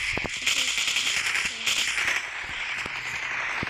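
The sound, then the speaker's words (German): Gunfire in a video game shooter fires as sharp bursts of several cracking shots, spaced unevenly over a steady bright hiss, with no talk. “Ey, ich schieß doch die ganze Zeit.”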